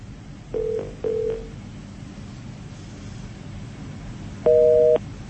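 A telephone busy tone sounds after a call disconnects: two short beeps, then a longer, stronger steady tone, over a low background hum.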